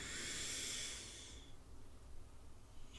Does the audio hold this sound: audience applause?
no

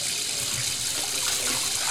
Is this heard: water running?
yes

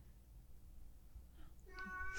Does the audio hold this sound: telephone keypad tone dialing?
no

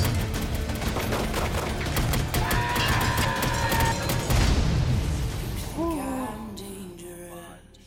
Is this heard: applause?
no

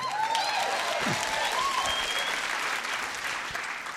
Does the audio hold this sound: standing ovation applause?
yes

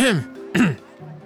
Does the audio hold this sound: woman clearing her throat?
yes

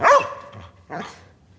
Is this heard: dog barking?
yes

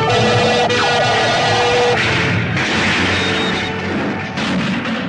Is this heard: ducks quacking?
no

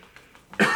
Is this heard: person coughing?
yes

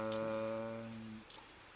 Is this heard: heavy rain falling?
yes

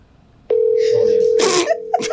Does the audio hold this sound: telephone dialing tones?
yes

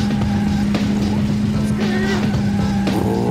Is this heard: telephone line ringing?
no

